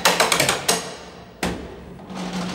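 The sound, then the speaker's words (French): Metallic tapping of a sounding rod struck along prison cell bars to check whether any bar has been sawn through: a rapid series of sharp taps, then a pause and a single stronger strike. “On passe avec une barre de sondage. Et au niveau du son, ça s'entend quand un barreau a été scié. Hein. Ça sonne mat, oui.”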